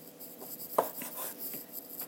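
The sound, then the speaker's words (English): A chef's knife slices thinly, drawn across and down through food with skin, making a few faint, scratchy strokes with one sharper tick among them, and no voices. “So I'm, again, trying to slice this with this chef's knife as thin as I can.”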